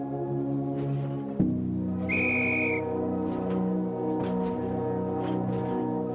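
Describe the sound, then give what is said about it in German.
A train whistle sounds before departure: a single short, high, steady blast of under a second over a constant low rumble, preceded by a dull thump. “Pfiff ertönt und der Zug setzt sich langsam in Bewegung.”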